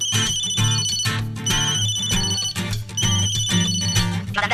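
A telephone ringtone sounding for an incoming call, a loud, bright melodic pattern repeating over a steady beat, with no talk.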